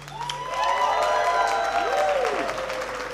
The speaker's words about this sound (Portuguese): aplauso para usted, gente linda.